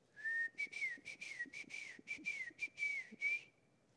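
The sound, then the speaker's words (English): A person whistles a grandfather's distinctive, one-of-a-kind whistle: a clear, high, wavering tone that warbles through a run of short repeated phrases for about three and a half seconds, then stops. “this distinct whistle that I had never heard before. And it's his own unique sound. It's just as unmistakable as his laugh.”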